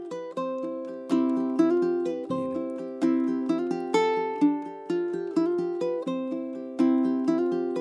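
A traditional Hawaiian tune played on ukulele: many plucked notes and chords in a gentle, lilting rhythm. Each note rings and fades, and the instrument plays alone without voices.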